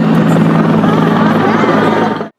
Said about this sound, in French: Un hélicoptère passe et l'excitation monte.